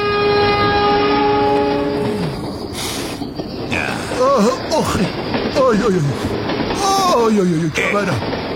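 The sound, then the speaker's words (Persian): A passing train sounds its horn in a long, steady chord over continuous rumbling rail noise, and people talk over it afterward. “اون قطاره داره به جوکجیا میره.”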